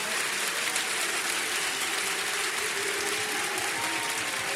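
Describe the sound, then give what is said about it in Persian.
Heydari clapping comes from a religious gathering: dense, steady hand claps from many people in unison, loud and continuous for the whole clip. “یک کف حیدری بزن، کف حیدری گفتم، دست بیاد بالا”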